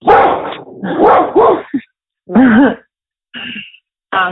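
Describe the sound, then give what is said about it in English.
A guard dog barks in several loud, harmonic bursts separated by short gaps, with some yelping, whiny tones in between and no talk over them. “Layla, it's okay. You're a very good guard dog, but it's fine.”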